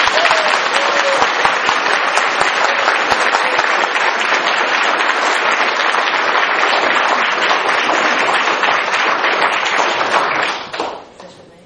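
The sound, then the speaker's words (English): Loud, sustained applause rises from an audience at a scientific society event in Glasgow welcoming a speaker. Dense, even clapping runs for about ten seconds, then tapers off and fades at the end. “Let's give him a big Glasgow welcome.”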